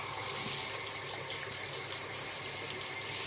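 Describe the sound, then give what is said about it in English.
Tap water runs steadily as hands are rinsed of brown sugar while baking, giving a faint, even, continuous hiss of flowing water with no breaks. “I don't want it on my hands. It's useless there. I want it in the mix. All right. Rinsing my hands off.”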